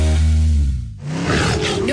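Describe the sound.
A tiger roar sound effect: one deep, loud roar with a strong, low rumbling tone that dips briefly near the middle, then continues as a rougher growl.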